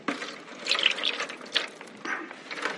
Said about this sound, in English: a little bit of water, and then we just put it straight back down.